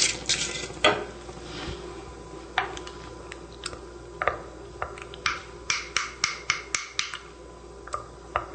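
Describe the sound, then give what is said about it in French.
A mixture is stirred to dissolve it, the utensil clinking against the container in sharp, crisp clicks, scattered at first and then falling into a quick, regular rhythm. “On n'oublie pas non plus de brasser le mélange. Alors, déjà, c'est assez bien dissous.”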